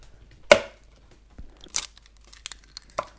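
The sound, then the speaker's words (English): Eggs cracked open for pancake batter in a kitchen give one sharp, crisp crack, then several smaller crunchy, dry taps and rustles of shell, quiet between hits and with no voices. “touching a large egg. And I'm about to crack it open.”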